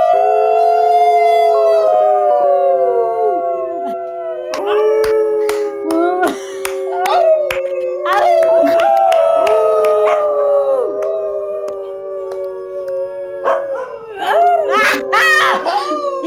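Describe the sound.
A group of people howl together in long, overlapping, wavering tones for about sixteen seconds. Shorter yelps and breaks join in partway through.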